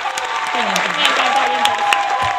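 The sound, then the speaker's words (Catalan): Applause from an audience, a steady wash of dense clapping that lasts about two seconds while a voice speaks over it. “Així que este aplauso va para vosotros, oyentes y oyentas.”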